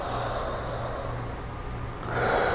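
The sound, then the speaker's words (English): A deep cleansing breath: one long, steady, airy rush of breath that swells louder toward the end, with no talk over it. “I'm just taking one more cleansing breath.”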